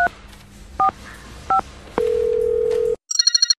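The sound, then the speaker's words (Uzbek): A telephone call being placed: three separate touch-tone beeps, a steady one-second ringback tone, then a short burst of trilling electronic ring pulses. “Yana bir marta telefon qilib ko'raychi.”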